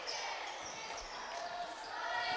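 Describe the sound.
A basketball bouncing on a court during a game, repeated dull thuds under steady crowd noise and a talking voice.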